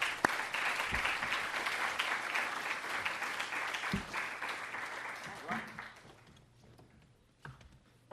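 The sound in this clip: An audience applauds to welcome a guest speaker at an LSE event, a dense, steady patter of clapping that holds for several seconds, then thins and fades, with a few isolated claps at the end.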